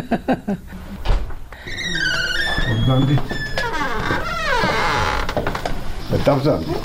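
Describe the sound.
A room door in a retirement home creaks with several drawn-out, wavering squeals. Scattered knocks and thuds are heard around the creaks.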